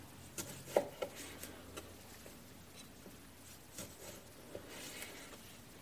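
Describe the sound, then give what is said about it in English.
Faint, soft cuts of a knife slicing small tomatoes into halves for a salad. A few irregular light taps and clicks sit over a quiet background, with no talking. “So now we're going to prepare our salad, and we're going to slice these little tomatoes in halves, just like so.”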